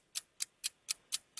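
Quiz countdown clock ticking: six sharp, bright ticks at a steady, quick pace of roughly four per second, faint and heard alone.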